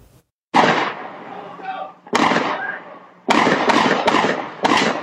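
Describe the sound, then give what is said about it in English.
Gunshots ring out on home security camera footage in Penticton early on a Sunday morning: six sharp, loud cracks, two spaced single shots and then a quicker cluster of four, with a voice briefly between the first two. “security footage captured a terrifying incident in Penticton when bullets rang out early Sunday morning.”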